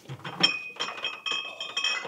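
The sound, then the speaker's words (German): Beer glasses clink together in a toast, several bright knocks in succession, each leaving a high, sustained ringing tone. “Ein Schlummerbierchen geht ja eigentlich immer. So, Prost, mein Lieber.”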